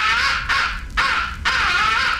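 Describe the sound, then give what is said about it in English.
Crow roost call: four harsh, raspy caws in rapid succession with almost no pause between them, loud and alone. “fifth and final essential call is the roost call. It is a deadly call.”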